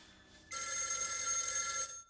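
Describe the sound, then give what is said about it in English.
Telephone bell ringing in a house hallway: one continuous bright, rattling ring lasting just over a second, fairly quiet and alone against a faint hum. “She stands, staring at the phone. Swallowing, she goes to pick it up.”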